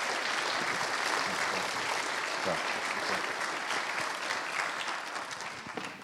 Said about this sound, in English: Can we give him a warm welcome?